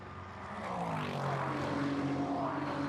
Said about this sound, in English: into the pit lane comes that Whelan Engineering car after, 20 minutes, 23 minutes of the race.